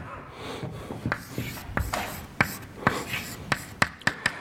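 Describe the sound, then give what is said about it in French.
An equation is written by hand as a series of short, irregular scratchy strokes and taps, some sharper than others, over a faint background hiss. “Donc je vais écrire défi sur dt.”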